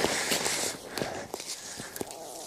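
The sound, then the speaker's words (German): Footsteps of someone walking down a slope: a few soft, irregular crunching steps, faint over a steady background hiss. “Und ich laufe mal wieder den Hang hinab.”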